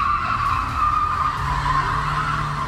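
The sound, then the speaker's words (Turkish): Tires screech as a car drifts in the middle of a street, a sustained high skidding squeal over a low engine rumble that holds steady throughout. “Sürücü cadde ortasında drift attı, trafiği tehlikeye düşürdü.”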